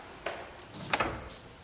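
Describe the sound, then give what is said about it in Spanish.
A door being shut as someone gets up in a bedroom, heard as one soft knock followed by a quick double click a moment later, quiet and with no talk. “Se levanta y cierra una puerta.”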